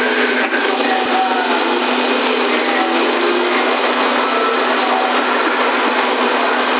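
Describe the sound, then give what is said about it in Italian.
Cooling fan of a CB radio amplifier running after being switched on from standby, a steady, unbroken whooshing hum that holds an even level from start to end. “È partita la ventola, sì.”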